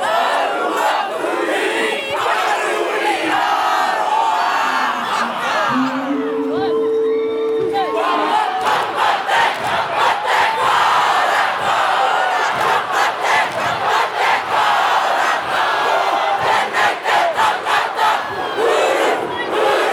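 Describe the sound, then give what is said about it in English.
A large crowd performs a haka during a world record attempt: loud, forceful massed shouting and chanting with a driving rhythmic pulse of voices and stamps, continuous and dense throughout. “You can hear just how much energy and force was put into it by the participants there. You can hear a pu tātara, the sound of a conch shell being blown. At the start of the haka, there would be the world Guinness record breaking attempt.”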